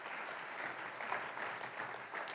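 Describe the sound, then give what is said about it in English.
Audience applause honoring a long-serving team of elders: many hands clap in a dense, steady wash for about two seconds, moderately loud and even, with no voices on top. “Can we just give them a clap as well?”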